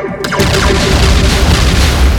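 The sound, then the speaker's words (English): Laser blaster shots from a sci-fi weapon fire in a rapid barrage, merging into a dense, loud, booming roar that continues without a break after a brief zapping start. “The girls leap in for cover from multiple laser shots.”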